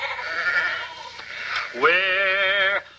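Sheep in a flock bleat, with softer calls first and then one loud, long, wavering bleat that holds steady before cutting off.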